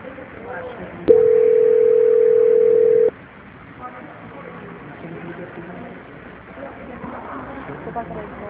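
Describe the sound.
Telephone line tone during a call transfer: a single steady, mid-pitched beep lasting about two seconds sounds clearly over a constant low background hiss, then the line falls back to noise.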